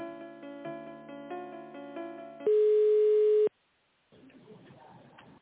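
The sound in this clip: A telephone line tone plays while a call to a catering plant is being transferred. A layered, steady tonal pattern gives way to one loud, pure, sustained tone lasting about a second, then a short silence and a hiss of line noise.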